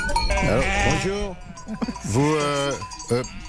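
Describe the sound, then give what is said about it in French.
Sheep and other livestock bleat during a transhumance herd crossing that blocks a car on the road, with several wavering, nasal cries rising and falling, some overlapping, amid a constant background rumble. “il y a des bruits d'animaux autour de vous. Vous n'êtes pas à Lyon ? Si, je voulais aller voir un film à l'UGC Confluence, mais je suis bloqué dans ma voiture par la transhumance.”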